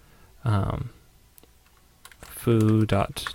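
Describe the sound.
Computer keyboard typing, with a few light, quick key clicks in the pauses between bursts of a man's speech.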